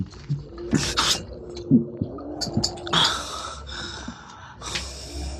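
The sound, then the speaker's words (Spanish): Choked, laboured breathing from someone with a bloodied mouth after a fistfight: a run of ragged gasps and snorting breaths at irregular intervals, uneven in loudness, with no talk over them. “respira ahogado y sonríe burlón”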